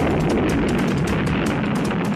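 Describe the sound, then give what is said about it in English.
A nuclear bomb explosion roars as a dense, steady wall of deep rumbling noise, loud and unbroken throughout, with no voices. “the countdown comes. 6, 8, 9. 3, 2, 1, the nuclear bomb.”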